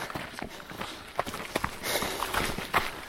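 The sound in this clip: Running footsteps on a flat mountain trail along a small ridge on Gran Canaria: many quick, uneven crunching steps at a brisk pace, moderately loud against steady outdoor noise.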